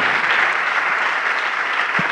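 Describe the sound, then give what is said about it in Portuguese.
Steady applause from an audience at a church service, a dense and fairly loud clapping that continues evenly throughout with no voices over it. “Vamos aplaudir ao nome do Senhor Jesus por cada vida que está chegando.”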